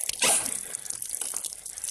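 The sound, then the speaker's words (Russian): Water runs from a tap into a jar as a steady, noisy hiss of flow, with a louder splash near the start and small, uneven fluctuations throughout. “Тот наполняет банку, дает Шурику. Недоверчиво на него смотрит, отворачивается к крану.”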